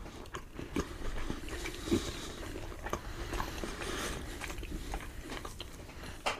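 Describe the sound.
Biting and chewing a fried dough pastry with a crisp fried outside, tasting like funnel cake: a few sharp, crunchy bites, then steady chewing at a fairly low level, with no talk.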